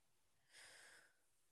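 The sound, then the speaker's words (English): A single sharp inhale, a faint, breathy hiss lasting about half a second that rises abruptly and then fades, with nothing else around it. “That sharp inhale.”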